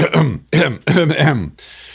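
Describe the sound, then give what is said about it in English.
A voice imitates a man's nervous, habitual throat clearing, several loud, throaty voiced bursts in quick succession, ending in a brief faint tail. “He had a nervous tic. He would clear his throat constantly when he spoke in public.”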